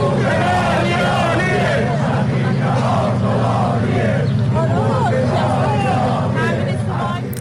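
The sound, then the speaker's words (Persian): Protesting pensioners chant slogans about soaring prices, inflation and poor living conditions. A loud, continuous mass of voices rises and falls without a break. “گروه‌هایی از بازنشستگان در این شهرها ضمن سر دادن شعارهایی که عمدتاً به گرانی و تورم افسار گسیخته و وضعیت نامناسب معیشتشان اشاره داشت”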